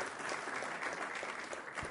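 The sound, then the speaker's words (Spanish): Audience applause greets newly arrived guests at an event in Uruguay: dense, steady clapping with an even texture throughout the short stretch, with no voices over it. “Ahí están, gracias por aplausos para ellos.”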